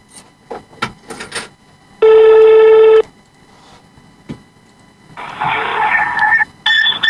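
A telephone rings for an incoming call: a loud one-second electronic ring, then after a pause a longer warbling ring, with soft clicks and taps before it.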